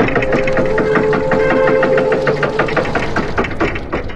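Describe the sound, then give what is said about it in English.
A voice imitates the gears and motors of old ride animatronics as a loud, continuous grinding drone with a rattling pulse, easing off slightly at the end. “The loudest part of it all is like the gears and the motors like moving. So all you hear throughout the entire thing is just...”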